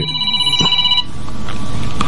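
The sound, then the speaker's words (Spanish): An electronic telephone ringtone signals an incoming call. A high, warbling ring lasts about a second over a noisy line, and a thin steady tone carries on after it. “Sí, entra una llamada con Yuri Reynoso.”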